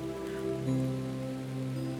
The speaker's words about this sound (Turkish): Yağmur damlaları, bitkileri, çiçekleri pırıl pırıl parlatırmış.